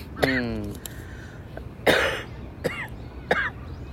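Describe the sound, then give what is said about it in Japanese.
A person has a coughing fit, with a few faint, harsh coughs and throat-clearing bursts spread out and separated by quieter breathy, voiced sounds. “失礼しました 。 ちょっと咳込んでしまいました。”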